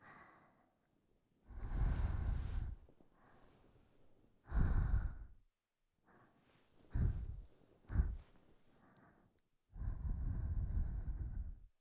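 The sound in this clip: Breath blown into a microphone: five soft, airy exhalations with rushing low-pitched gusts, some long and some short, separated by quiet pauses and with no talk.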